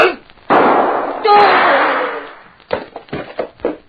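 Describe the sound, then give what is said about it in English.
A gunshot in a radio drama: a sudden loud report swells into a long, broad, crackling decay lasting nearly two seconds, after which voices resume talking. “Very stupid of any man to try shooting at a man who is behind him.”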